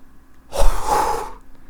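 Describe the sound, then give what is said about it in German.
A person exhales deeply, one long breathy rush of air lasting just under a second, rising quickly and then tapering off, with no speech around it. “Wirklich ausatmen.”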